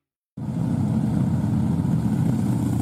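A Harley-Davidson motorcycle engine gives a steady, low, throaty rumble. It starts abruptly and then holds a constant level with no voices.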